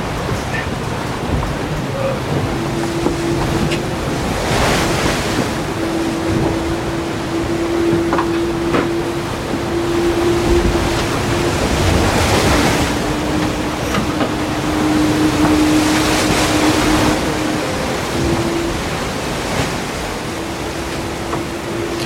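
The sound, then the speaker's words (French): A boat motor holds a steady low hum over the ocean, while broad washing surges of waves and water noise swell and fade repeatedly around it. “Vas-y, relance un peu le bateau.”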